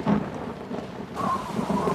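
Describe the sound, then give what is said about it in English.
A thunderstorm with steady, dense rain falling on surfaces. A low thunder rumble sounds near the start, and the rain hiss swells louder partway through. “Lightning flashes outside”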